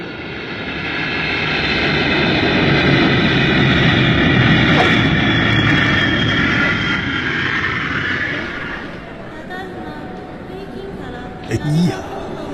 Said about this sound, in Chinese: 这成田机场可真大呀！